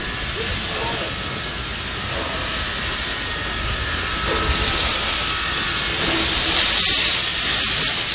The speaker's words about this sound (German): Bevor es losging, wurde schließlich noch die Lok in Position gebracht.